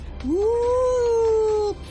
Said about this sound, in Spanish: ¿Y el gato? ¡Miau!